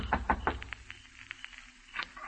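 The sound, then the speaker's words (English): Knocking on the door of a house in the hills outside town at night: three firm raps, then a run of lighter, quicker taps and one last knock, all fairly quiet. “I kept knocking.”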